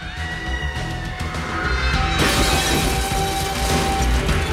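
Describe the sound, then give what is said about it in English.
Glass shatters as a person falls straight through a glass coffee table after a gunshot; a sudden broad crash bursts in midway and a harsh, dense spray of breaking glass carries on loudly to the end. “He shoots and Maxie falls straight through a glass coffee table.”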